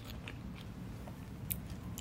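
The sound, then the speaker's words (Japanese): Faint, crisp biting and chewing of Kaga Daimyo kintsuba, a Japanese sweet, with a few soft crunchy clicks over steady low mouth noise and no talk. “まあこれも美味しいんだけど加賀大名金唾すごいです”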